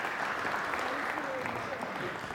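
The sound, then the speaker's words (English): An audience applauds the participants of a scripture re-enactment with dense, steady clapping that continues evenly throughout at a fairly low level. “Let's give everyone a round of applause.”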